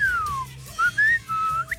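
A person whistling a short tune of several clear, high notes: a long falling glide first, then shorter held tones and a quick final chirp, heard alone with no talk.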